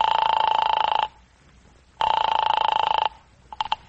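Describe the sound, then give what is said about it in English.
A telephone ringing after a number is dialed, heard as two long, bright rings separated by a pause, followed by a few short clicks near the end. “Anyway, I dialed Clifton's number.”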